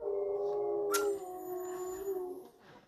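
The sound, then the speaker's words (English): Dogs howl and whimper in drawn-out, wavering tones with a brief sharp yip partway through, fairly quiet throughout. “And I apologize about my dogs.”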